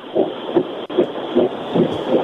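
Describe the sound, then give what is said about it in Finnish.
An Ukko-Pekka steam locomotive starts to move, with evenly spaced, muffled chuffs pulsing over a continuous low rumble. “Juna liikkuu, kuulette äänen.”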